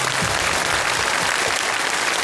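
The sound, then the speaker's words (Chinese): Audience applause for young contestants after a performance on a children's poetry show: a dense, steady wash of many hands clapping, even in loudness from start to finish with no breaks. “你们有一个最完美的表现，好吧，来掌声送给他们。”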